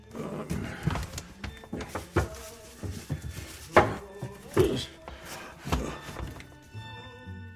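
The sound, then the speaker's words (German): Wooden thunks and knocks as a wardrobe is opened, a string of sharp, uneven hollow impacts with some rattling, spread irregularly over several seconds. “Also mache ich den Schrank auf und lass mich auf die Knie fallen.”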